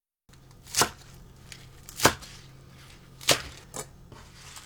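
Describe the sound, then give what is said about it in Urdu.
A knife chops spinach into 5 cm pieces after the roots are trimmed, striking the board. Four sharp, dry chops land at uneven intervals over a low, steady background hum. “پالک کی جڑیں کاٹ لیں اور پھر انہیں دھو کر 5 centi metre لمبے ٹکڑوں میں کاٹ لیجئے۔”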